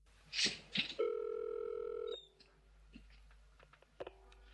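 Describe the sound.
A telephone line tone at the start of a phone call: a couple of short clicky bursts, then a steady, loud electronic tone with harmonics lasting about a second. Faint scattered clicks follow.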